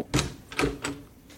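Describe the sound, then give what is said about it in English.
Three knocks at a door, sharp and fairly loud. Two come in quick succession, and a third follows shortly after, with silence around them. “Oh, there's someone at the door. Hang on.”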